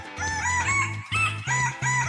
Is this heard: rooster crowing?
yes